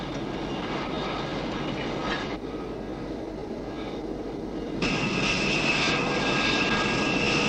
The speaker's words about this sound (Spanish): Que despegue un nodriza para carga de combustible.